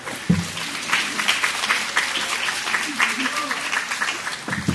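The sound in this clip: A crowd standing at a religious gathering applauds to welcome the first speaker, with loud, sustained clapping throughout and voices mixed in.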